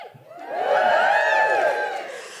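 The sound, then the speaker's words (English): A live comedy audience cheers and whoops on cue, a swelling crowd roar with high, arching shouts that builds in the first half-second, holds loudly, then eases off toward the end. “Just give us a cheer if you think Shakespeare was, in fact, a bunch of women.”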